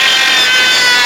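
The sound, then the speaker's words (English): A cordless Dremel cuts away plastic around a screw with a loud, continuous high-pitched grinding whine that stays steady and unbroken throughout. “This is the sound of a cordless Dremel. And I am removing the plastic around the offensive screw.”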